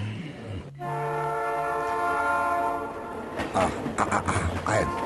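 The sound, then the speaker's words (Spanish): A train arrives at a station, sounding a long, steady horn for a few seconds, followed by irregular clattering and hissing. “Ahí están. Ahí llegó el tren.”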